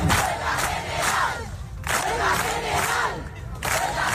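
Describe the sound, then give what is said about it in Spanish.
Rhythmic crowd chanting at an open public assembly of a housing protest in Las Palmas de Gran Canaria, loud bursts of massed voices in a steady beat with one short pause midway. “Este es el sonido de la asamblea abierta organizada ayer en Las Palmas de Gran Canaria por la plataforma Derecho al Techo.”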